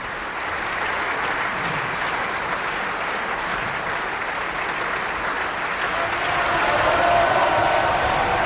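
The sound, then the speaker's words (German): An opera audience at the Bayreuth Festival applauds a soprano after a performance of Wagner's Siegfried. The clapping is dense and sustained, steady throughout and swelling slightly louder toward the end. “Camilla Nylund. Sie ist schon seit rund 15 Jahren Stammgast hier auf dem Hügel. Eine der führenden Wagner- und Strauss-Sopranistinnen weltweit. Und sie empfängt jetzt auch den Applaus des Publikums.”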